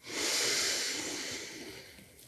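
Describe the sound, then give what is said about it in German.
A deep breath comes as one long, airy hiss that swells quickly, then tapers slowly over about two seconds, alone and without talk. “Atme nochmal tief ein”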